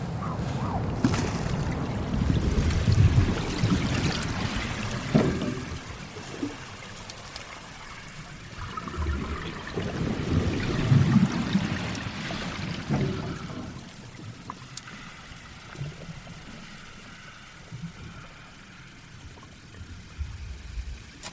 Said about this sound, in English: What I'm hearing now underwater is that wonderful harmonic swish, that tug of the tidal waters